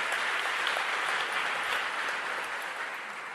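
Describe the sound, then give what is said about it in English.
Audience applause during a talk on racial reconciliation, steady dense clapping that eases slightly toward the end. “now, you shouldn't have clapped unless you want to do it.”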